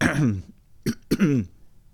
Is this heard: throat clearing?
yes

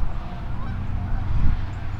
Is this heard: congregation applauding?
no

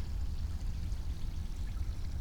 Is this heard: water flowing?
yes

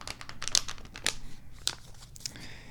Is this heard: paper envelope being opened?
yes

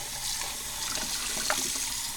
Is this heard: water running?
yes

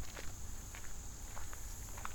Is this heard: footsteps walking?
yes

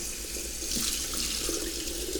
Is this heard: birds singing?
no

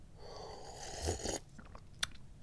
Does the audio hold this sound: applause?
no

